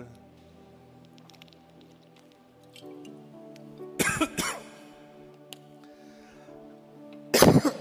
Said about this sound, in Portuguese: Desculpa, mas eu sou natural igual a vocês. Eu engasgo.